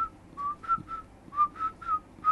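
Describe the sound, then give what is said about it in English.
Inward whistling, with a person drawing breath to whistle a short tune. The notes are brief, breathy and fairly high, separated by small gaps, and sound faint and alone. “That was inward whistling.”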